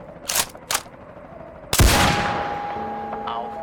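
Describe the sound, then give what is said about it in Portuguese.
A sniper's rifle shot rings out as one sharp, loud blast with a long decaying tail, preceded by a couple of shorter sharp sounds; a steady tone lingers afterwards. “Positivo, senhor, na mira. Permissão para atirar concedida.”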